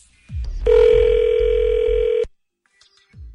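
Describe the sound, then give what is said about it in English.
A telephone tone sounds as a call is transferred to voicemail: one steady, mid-pitched tone held for about a second and a half, with low handset thumps before it and a faint click after. “Let me put you through to voicemail. So hang on 1 second.”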